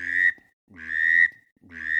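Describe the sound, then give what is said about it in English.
A duck call whistle imitates a drake: three sustained, buzzy whistled notes rich in harmonics, each about half a second long and separated by short silent gaps, with the last one cut off. “Can you blow on that whistle there, and give us a few, just a little bit of an example. So a Drake would”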